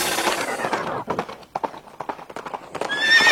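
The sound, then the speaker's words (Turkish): Racehorses gallop in a horse race, with many rapid, overlapping hoofbeats in a dense, loud clatter and a whinny heard along the way. “At yarışları heyecanı Radyo Spor'da.”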